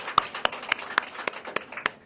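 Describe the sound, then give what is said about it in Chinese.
A church audience claps to welcome guests: crisp, evenly spaced claps in a steady, quick rhythm, moderately loud and without voices. “我们要感谢我们的弟兄姐妹啊，我们用这样的掌声欢迎你们的到来好不好？”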